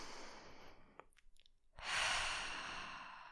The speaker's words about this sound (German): Wir wollen erstmal tief und bewusst einatmen.